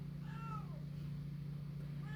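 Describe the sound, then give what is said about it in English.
Faint meows from a friendly, talkative house cat over a steady low hum. A drawn-out call comes early, and a second meow starts just before the end and is cut off. “here comes my friendly talkative cat”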